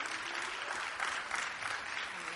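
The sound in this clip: Audience applause welcoming two guests onto a stage, a steady, dense patter of many clapping hands that holds evenly for the whole clip without a clear peak or fade.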